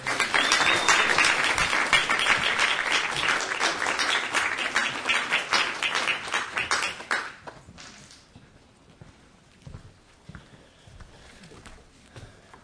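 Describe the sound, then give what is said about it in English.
An audience applauds to welcome a poet to the stage, with full, steady clapping for about seven seconds. It then thins quickly to a few scattered claps and faint rustling. “we're just really lucky to have him here as a poet today, so please help me in welcoming him to the stage.”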